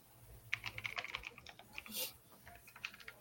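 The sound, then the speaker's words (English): Typing on a computer keyboard: many quick, irregular clicks and taps in uneven bursts, with one brief louder rush of noise partway through and no voices. “let me type this game up really quick.”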